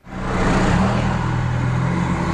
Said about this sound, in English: A wet morning not helping matters on this very busy thoroughfare in Auckland. Cars crawling to school drop-offs, work and appointments.